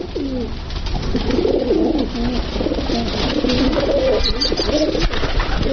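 Pigeons cooing in repeated low, soft, rolling phrases that run steadily through the whole stretch with no voices over them.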